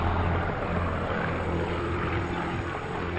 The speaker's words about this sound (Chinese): 喷火式的声音逐渐消失